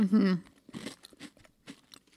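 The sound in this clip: Chewing on a chocolate Oreo cookie: after a brief voice at the start, a few soft, crunchy bites and moist chews follow in an uneven rhythm.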